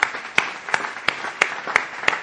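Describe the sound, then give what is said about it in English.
A church audience claps in unison: seven sharp, evenly spaced beats at a brisk steady rhythm stand out over a softer bed of scattered applause. “Let's give ourselves a great clap off.”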